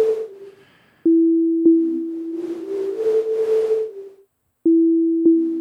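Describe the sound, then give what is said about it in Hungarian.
Synthesized tones from a SuperCollider sequencer in a meditative experimental piece: steady sine-like hums cut by sharp clicks, a noisy shimmering passage in the middle, then a brief silence before the tone returns with further clicks. “egy Super Collider nevű programmal készített szekvencerbe játszott, szintetizált hangjaimat hallgathatjátok meg.”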